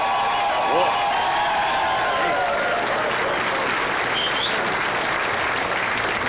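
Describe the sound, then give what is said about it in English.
A canned studio-audience sound effect of applause and cheering plays on a trucker's show. The clapping and whoops are steady and somewhat muffled, with no break. “That was our live studio audience that are in my sleeper. A couple hundred of them back there,”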